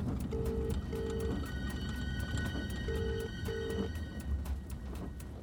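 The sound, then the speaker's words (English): Ringing of an outgoing phone call: two double rings of a steady tone, with a pause between the pairs, heard faintly over constant background noise. “Call Nyssa. Calling Nyssa.”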